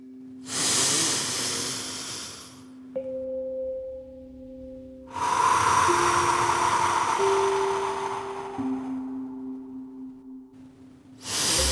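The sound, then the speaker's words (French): Slow, deep breathing in a guided relaxation exercise, drawn in through the nose and let out through the mouth: long soft airy rushes separated by pauses, over gentle sustained musical tones. “Inspirez par le nez et expirez par la bouche, comme ceci.”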